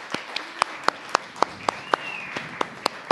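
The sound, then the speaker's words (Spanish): Sparse, rhythmic hand clapping at a community radio and free-media gathering, with an audience asked to applaud loudly enough for the microphone. Sharp, evenly spaced claps repeat many times at a steady pace, fairly faint, with a thin high whistle-like tone behind them. “vamos a darle un fuerte aplauso, que se oiga bien fuerte para que se oiga por el micrófono, hasta Madrid, España”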